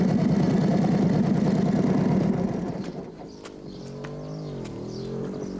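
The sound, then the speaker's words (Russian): German motorcycles with sidecars driving past a ruined church, a loud, rough engine rattle that fades after about two and a half seconds, followed by quieter sustained tones. “Трое немецких солдат едут на мотоцикле мимо разрушенной церкви. Им навстречу едет такой же мотоцикл.”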